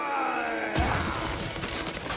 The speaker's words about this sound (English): That big Viking is about to smash the ice with his club.